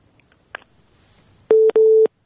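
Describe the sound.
Telephone busy tone after a caller's line drops: two loud, steady electronic beeps at the same pitch come in quick succession, preceded by a faint click and a short blip in near silence.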